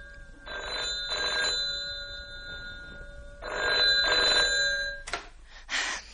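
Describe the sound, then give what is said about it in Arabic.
A household telephone bell rings in two separate bursts. Each burst is a quick pair of bright metallic rings, with a pause between them, and a couple of short noises follow. “ما ترد يا بنتي، انت واقفة تتفرجي على التليفون كده ليه؟”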